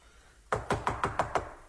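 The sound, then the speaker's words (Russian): Six quick knocks on a door, sharp and evenly spaced, rapping out a steady rhythm after a moment of near silence. “Кто стучит? Это я, Гесс. Не бойтесь открыть.”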